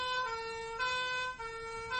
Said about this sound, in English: What was that? What was what? It sounded like a siren. A siren.